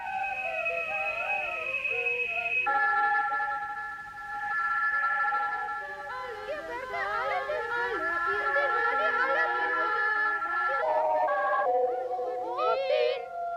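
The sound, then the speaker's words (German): Experimental electronic music from 1956: sustained synthetic tones and gliding, warbling pitches blend with a recorded sung boy's voice. Layered lines shift and break off abruptly at several points over a steady level. “Und eins seiner bekanntesten Werke ist der Gesang der Jünglinge von”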